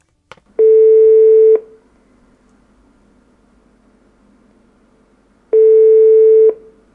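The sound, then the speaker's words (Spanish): Ringing tone on a telephone line while calling an exchange student abroad: two long, steady tones of about a second each, separated by a long pause filled with faint hiss. “vamos a hacer una retransmisión en directo con un compañero que está de Erasmus. Vamos a ver si nos coge el teléfono.”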